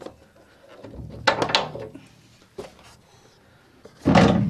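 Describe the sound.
A door shuts on a farm shop built from a converted metal filter tank on stilts, with a few knocking thuds and rattles and a heavier slam at the end.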